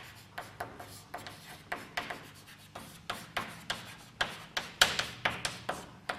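Writing on a board during a lecture on equations makes many short, scratchy strokes in uneven bursts, each a quick rasp that fades fast. The strokes are fairly faint, with no talk over them.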